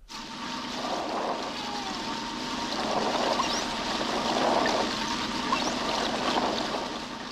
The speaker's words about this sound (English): Out on Dorky Sound, an inflatable boat, gear is tested before a dive.